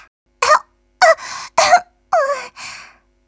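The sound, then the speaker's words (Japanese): Coughing after choking on a piece of banana: a series of harsh, voiced, strained coughs in short separate bursts with brief gaps between them. “ごめんなさい。もう大丈夫。バナナがちょっと喉に詰まっただけだから。”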